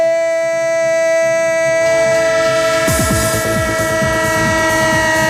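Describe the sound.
A train horn sounds as a loud, sustained chord, joined partway through by the rhythmic rumble and clatter of a running train, used as a sound effect.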